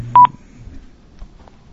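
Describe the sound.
A mobile phone's low-battery warning after a long call: two quick, bright electronic beeps right at the start, followed by near silence with faint low rumble.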